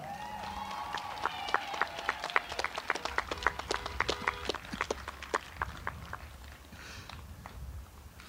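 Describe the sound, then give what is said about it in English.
Jogging footsteps of a retiring teacher during a school recognition event, many quick, evenly spaced soft footfalls in a steady running rhythm, fairly faint against low background noise. “She's jogging.”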